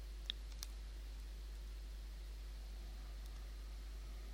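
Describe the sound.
Two faint mouse clicks press the send button on a web form, closely spaced near the start, followed by a low steady hiss with no talking.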